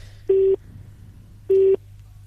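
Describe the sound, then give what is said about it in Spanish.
Two identical mid-pitched telephone beeps, evenly spaced and of equal length, sound on a line just before a call is passed to voicemail, with a faint steady hum beneath. “Después del tono, esta llamada será derivada a un contestador personal.”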